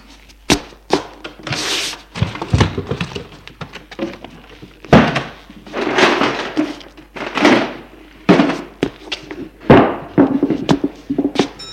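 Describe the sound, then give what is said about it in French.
Someone rummages through cupboards and a wardrobe: many irregular thumps, knocks and door bangs mixed with rustling and shuffling of objects, loud and uneven throughout. “Elle fouille placard, armoire.”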